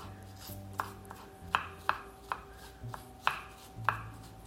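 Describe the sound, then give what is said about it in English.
A knife finely dicing a stalk of celery on a board, with a series of crisp, fairly regular chopping taps over a quiet background. “So get out a stalk of celery and finely dice it.”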